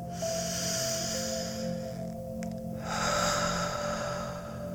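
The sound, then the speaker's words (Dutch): Deep breaths in and out during a guided relaxation exercise: long airy hissing airflow, a short pause, then another sustained breath, over a steady low drone. “En we beginnen met 3 keer goed in te ademen.”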